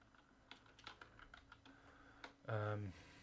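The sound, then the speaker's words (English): Faint tapping on a computer keyboard, a few irregular soft clicks at a quiet level, then a brief voice near the end. “I need to click off this Bam Margera page”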